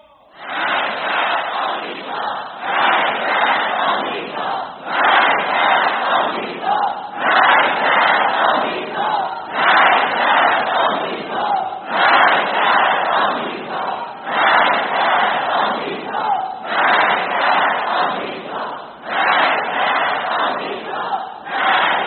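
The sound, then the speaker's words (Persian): A large crowd loudly chants the slogan 'Death to America' in steady, repeated shouted phrases with a regular rhythm, one after another. “بدانید و این را بدانید که این شعار شما، مرگ بر آمریکای شما، این فریادی”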